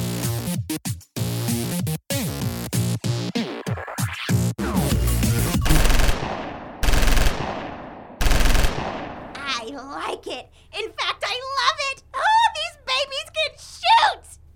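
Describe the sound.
Gunfire at shooting targets: many rapid, sharp shots in quick bursts, then a few heavier, spaced blasts, after which people talk.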